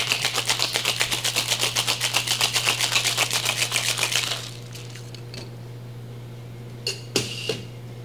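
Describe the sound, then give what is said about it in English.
A bartender rinses a bar tool while mixing cocktails, giving rapid, rhythmic rattling bursts for about four seconds before they stop, followed by a few faint clicks and knocks. “That was me rinsing my tool.”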